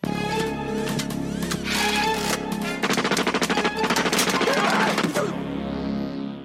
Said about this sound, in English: Why did I give her a gun?